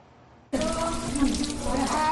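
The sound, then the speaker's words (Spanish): Water gushes from taps at a school in Petare, Caracas, where they had been dry for three years. After a quiet moment, a loud, steady rushing flow starts abruptly and keeps running. “Durante 3 años, por los grifos de esta escuela, dejó de escucharse este sonido.”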